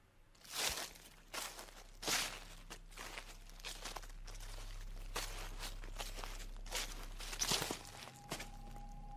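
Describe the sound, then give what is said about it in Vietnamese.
Footsteps rustle through a garden at night, a slow series of soft, crunchy steps over a constant low hum, with a faint steady tone near the end. “ả nhận ra có tiếng chân của ai đó đang sột soạt đi lại ở ngoài vườn.”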